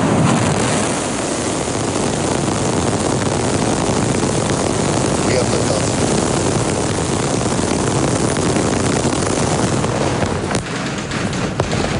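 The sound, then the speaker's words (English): Thunderous launch of SpaceX's Super Heavy Starship rocket on an uncrewed test flight in Texas, a loud, dense, crackling roar that holds steady throughout. “That was the sound of SpaceX's latest Super Heavy Starship rocket successfully launching in an uncrewed test flight.”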